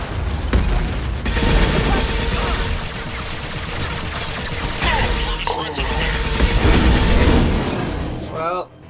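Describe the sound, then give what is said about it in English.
Rockets fired at the player in a video game: a loud, sustained barrage of booming blasts and crackling debris with heavy low rumble, dipping briefly midway and cutting off at the end. “That's enough rockets from him.”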